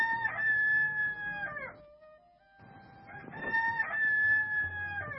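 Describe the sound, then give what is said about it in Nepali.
A rooster crowing twice in a farm coop, each crow a long, bright, strained call with a harsh rising start and a sustained drawn-out tail, separated by a short quiet gap. “जक्खु भालेले खोरका पोथीहरूलाई मात्र होइन, भर्खरै बाँच्न सिक्दै गरेका तन्नेरी भालेहरूलाई पनि माया गर्थ्यो। उनीहरूलाई सुरिलो स्वरमा टाढा टाढासम्म सुनिने गरी बाँच्न सिकाउँथ्यो।”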